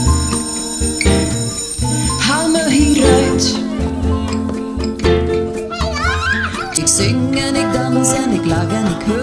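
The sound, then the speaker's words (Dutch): A school bell rings amid a bouncy, dense children's song, its bright ringing tone mixed under full instrumentation and young voices throughout. “dan de schoolbel”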